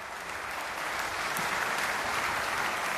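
An audience applauds a concert performance with dense, steady clapping that stays loud and even throughout, with no pauses.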